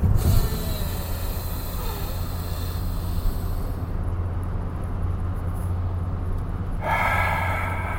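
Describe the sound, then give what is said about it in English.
Deep breaths drawn in through the nose and let out through the mouth, a loud, continuous airy rushing and snorting noise with no clear gaps between breaths and no talking. “3 deep breaths into the nose, out through the mouth.”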